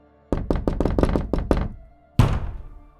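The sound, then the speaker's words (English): Toilet stall door banged forcefully from the inside: a rapid, loud series of heavy knocking thuds, then a short pause and one more hard, booming bang that rings out. “the door was banged on from the inside with a tremendous force.”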